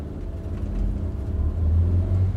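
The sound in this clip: Low, steady engine rumble of an American vehicle pulling away at a border crossing and turning around a watchtower toward the Wall, growing slightly louder as it moves off, with no voices.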